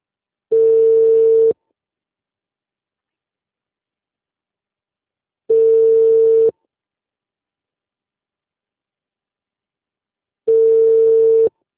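Telephone busy tone after a dropped call: three identical steady beeps, each about a second long, separated by long even gaps of silence.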